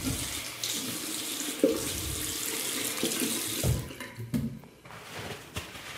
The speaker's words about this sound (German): Hände waschen.